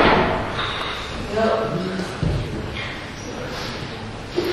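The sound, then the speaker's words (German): A door up above being shut during a lecture in a warm room, a single dull thud partway through, heard under faint background voices and room noise. “Kann die Tür da oben zumachen, das ist so laut. Danke.”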